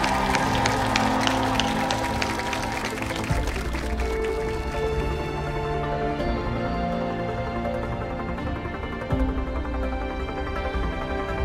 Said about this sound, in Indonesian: Tepuk tangan dong.